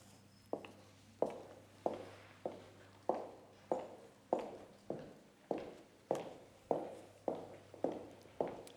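Footsteps walking toward a hotel corridor: a long, steady series of firm, evenly spaced steps, each sharp and quickly fading, over a constant low hum.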